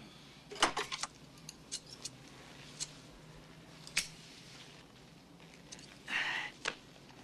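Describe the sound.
Scissors snipping hair at a barbershop, a scattering of short, crisp snips, clustered at first and then spaced out, with a longer rustling burst near the end over quiet background noise.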